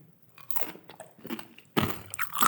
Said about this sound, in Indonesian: Itu makan apa? Hmm? Itu apa yang dimakan? Roti. Roti.